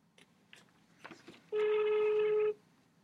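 A telephone call being placed: a few faint clicks, then a single steady ringing tone lasting about a second that stops abruptly, with near silence around it.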